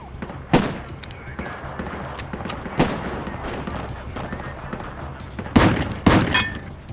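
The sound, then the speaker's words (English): Gunfire exchanged between law enforcement agents and a shooter: a few sharp, loud shots spaced irregularly over a constant rushing noise bed. “Agents and officers continued firing.”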